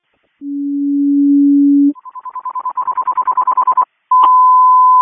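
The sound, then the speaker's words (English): Fire department dispatch alert tones for a general alarm: a long steady low tone, then a rapidly pulsing higher tone that grows louder, a brief silence, and a steady high tone. “CCOM, can you tone out a general alarm for a filling? Copy.”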